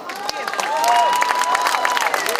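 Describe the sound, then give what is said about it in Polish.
Applause with crowd noise greets a team member as he is introduced, a dense run of clapping that swells slightly and holds steady, with some thin tonal cries through it. “No tak, Filip zbiera jak zawsze zasłużone brawa.”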